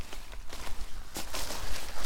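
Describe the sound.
Irregular footsteps crunch along a forest path, several soft, scuffing steps in uneven rhythm at moderate loudness, with no voices over them.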